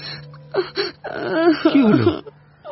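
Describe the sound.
A voice imitates a boy crying: two short whimpering sobs, then a longer wavering wail that falls in pitch before trailing off, with nothing else heard.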